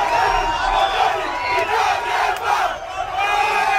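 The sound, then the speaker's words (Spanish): A crowd of neighbours cheers, whoops and shouts as a border fence separating Gibraltar from the Spanish mainland falls, a dense, continuous roar of many voices with sharper yells breaking through. “Es el sonido de cómo celebraban vecinos de esa zona la caída de la verja que durante 117 años ha separado el Peñón y la península.”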